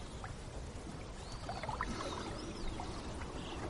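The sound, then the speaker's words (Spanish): Gentle water swishing and trickling as a rowboat glides along a river, soft and continuous beneath a faint noise bed. “Continúan navegando por el río uno frente al otro sentados en la barca.”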